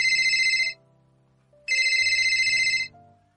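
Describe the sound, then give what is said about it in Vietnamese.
A mobile phone ringtone signals an incoming call: two bright, pulsing bursts of the tune separated by a short pause, with faint low tones underneath. “Nàng đang muốn gọi lại, Cố Nghiên Thu đã gọi tới lần nữa.”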